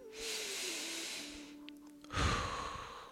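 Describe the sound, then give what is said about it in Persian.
Deep, slow breaths during a meditation for relaxation and pain relief: two soft, airy hisses of breathing over a faint, steady low musical tone. “ببینین میتونین عمیقتر نفس بکشین دوباره دم میگیریم”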